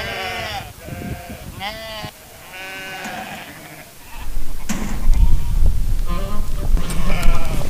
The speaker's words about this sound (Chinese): 每天早上5、6点，草原上太阳已经升起，各家各户的羊群都会陆续出圈。